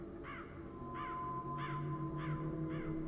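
Crows perched in a kapok tree at the edge of a village give five harsh, evenly spaced caws over a steady low drone.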